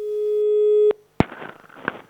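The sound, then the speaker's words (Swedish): A telephone call tone sounds as a single steady, pure beep held for about a second. It cuts off sharply with a click, and brief rustling noise follows. “Nej, jag gör det. Jag ringer.”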